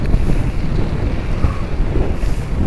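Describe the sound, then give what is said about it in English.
Strong wind blowing straight into a microphone outdoors in snow, a loud, continuous low rumbling roar with gusty buffeting throughout and no talk. “I'm sorry if there's a lot of wind noise, because there's a lot of wind right now.”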